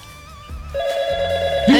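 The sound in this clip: A telephone rings with an incoming call on a fundraising call-in line. A steady electronic ringing tone comes in after a fainter tonal warble, holds evenly, then swells louder at the very end.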